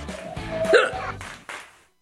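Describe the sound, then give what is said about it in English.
A sharp hiccup from a person with the hiccups stands out mid-clip, surrounded by soft breathy sounds and low background noise before a brief quiet gap. “As you guys can see right now, I have the hiccups and they're not very fun.”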